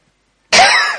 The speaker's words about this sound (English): Sorry about the coughing.